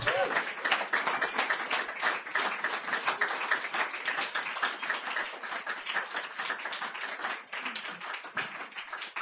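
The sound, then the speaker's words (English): Audience applause at a reading event: steady, dense clapping from many hands, sustained and fairly even in loudness for about nine seconds. “Ladies and gentlemen, give him a hand. Please do that. Keep it going. Keep it going.”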